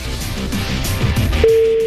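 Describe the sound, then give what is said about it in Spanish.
A telephone call placed from a private number: after rough, noisy handling sounds, a steady low electronic tone starts and holds unbroken to the end. “A ver, estoy marcando por privada.”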